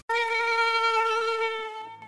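A loud, high whining buzz like a mosquito starts abruptly and holds a steady pitch with slight wavering, fading a little before ending, with no talk.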